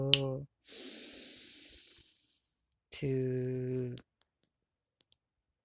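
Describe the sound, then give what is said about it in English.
A long, deep breath drawn in through the nose during a guided breathing exercise: a soft, steady airy hiss lasting over a second. Short voiced hums come just before and after it. “Let us take a long, deep breath, counting 3, 1 from the nose.”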